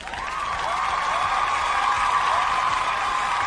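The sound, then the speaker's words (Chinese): Applause for a lineup of competition contestants: sustained clapping from an audience that swells quickly and then holds at a steady, full loudness without talk. “在这里我们用掌声鼓励他们，同时也预祝他们在本期的粤赛当中取得一个优异的成绩。”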